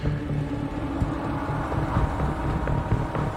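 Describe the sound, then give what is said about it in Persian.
Strong wind blows in a steady, rumbling roar with low, gusty buffeting throughout and no voices. “اینجا خیلی باد میاد”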